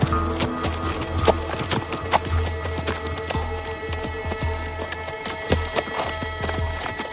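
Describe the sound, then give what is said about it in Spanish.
Horses' hooves clop in a brisk, steady rhythm as riders halt their mounts at the foot of a slope in a Western scene, with a low held tone underneath. “En ese momento, Dan Evans y sus hijos detienen los caballos al pie de la ladera.”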